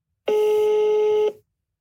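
A telephone call being dialled sounds as one steady electronic tone, loud and alone, holding at a single pitch for about a second before stopping cleanly.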